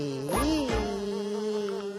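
A fly buzzing in flight, heard as a steady, nasal droning tone that wavers in pitch near the start and then holds level and fairly loud throughout.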